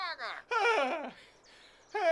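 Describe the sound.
A person imitates bird calls with a few bursts of warbling, high chirps and sliding whistle-like notes, the voice rising and falling between short pauses.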